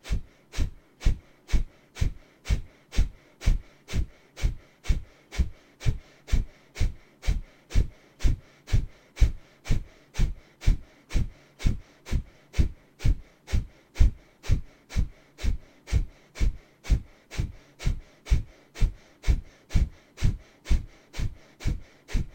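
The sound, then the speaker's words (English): Forceful yoga breathing, the belly contracting toward the spine on each exhale: many sharp, puffing exhalations through the nose in a fast, steady rhythm, evenly spaced and of even loudness, with quiet passive inhales between. “What we're doing here is we're contracting the belly towards the spine on exhale, and the inhale is happening naturally in between.”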